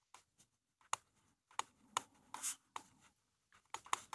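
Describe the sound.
Pen scratching on paper in many short, faint strokes that arrive irregularly with brief silences between them.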